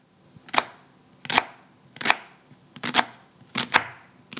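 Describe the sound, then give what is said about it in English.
A knife chops onions on a board in a home kitchen, preparing a lentil stew. Sharp, crisp strikes land in a loose, fairly steady rhythm, several of them, alone without talk. “So I'm cutting onions.”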